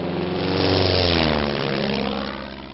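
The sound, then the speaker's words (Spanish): Propeller airplane engine roaring as the plane prepares to take off, a loud, dense, steady drone that swells slightly and then eases off a little toward the end. “Les habla el capitán del avión. Abróchense los cinturones y prepárense para volar porque vamos a emprender el viaje de su vida.”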